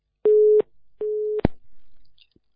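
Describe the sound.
Telephone busy tone after a call is hung up: two steady, mid-pitched beeps in succession, followed by a sharp click and a short stretch of faint line noise.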